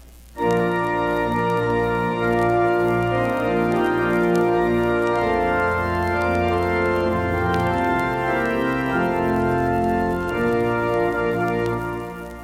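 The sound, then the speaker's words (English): A church organ plays a hymn exactly as printed, with full sustained chords running on without any breathing rests between phrases, holding a steady, unbroken volume from start to finish. “We must insert some rests into this music where the people breathe. The organ must also breathe so that the music will sound alive. Listen to it as it sounds exactly as printed.”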